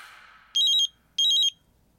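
Phone ringing from an unknown number at a rumored haunted tunnel on Halloween, two short, loud electronic trilling rings separated by a brief pause.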